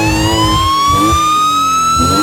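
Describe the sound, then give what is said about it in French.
A loud police siren wails during a car chase, its tone climbing slowly over a low engine rumble. “Mec, il a, hop, la police arrive derrière, tu vois, tranquille. Et il fait le malin encore.”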